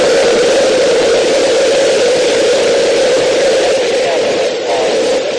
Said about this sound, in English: We've gone for main engine start. We have main engine start.